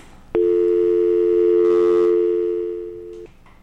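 A telephone line tone on an unanswered call-in line: one sustained electronic tone of steady pitch lasting about three seconds, loud and clean, starting and stopping abruptly with no voices.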